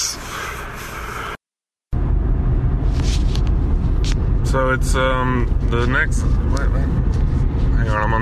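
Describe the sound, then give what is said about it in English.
Steady low road rumble inside a moving car, broken by a brief silent gap, with a voice talking over the noise. “I shouldn't be recording while I'm driving, but whatever. I'm almost home.”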